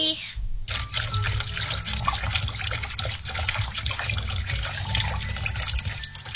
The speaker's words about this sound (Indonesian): masih suka menyisakan air minum, membiarkan air mengalir tanpa guna, hura-hura membiarkan air terbuang begitu saja.